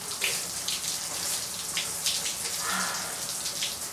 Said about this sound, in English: She rinses her hair and rubs her face under the running water.